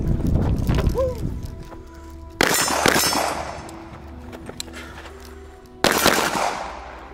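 Gunshots at a shooting range, heard as two loud, sharp bangs a few seconds apart, each with a long ringing decay, after an earlier stretch of rougher noise.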